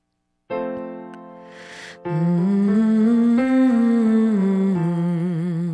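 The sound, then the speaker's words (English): A voice humming a nasal N sound up and down a five-note scale, stepping higher and then back down in a smooth, steady tone, after a sustained opening pitch. “put your tongue on the roof of your mouth, and make an N sound, kind of like something tastes really good.”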